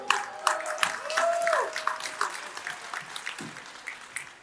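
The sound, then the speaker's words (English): An audience at the She Trucking Expo applauds a speaker taking the stage for a talk on the future of trucking, with dense, steady clapping that carries on throughout. “The future of trucking by Alan Wingfield. Y'all give it up for him.”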